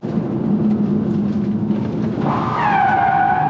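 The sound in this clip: Tires squealing as an electric car skids under the handbrake: a steady rush of road and motor noise, then a loud, high-pitched squeal with bright overtones that sets in and drifts slightly downward in pitch.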